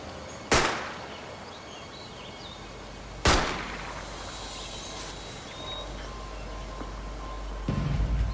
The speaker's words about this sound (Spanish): Luego le disparó a Roxy Rodel.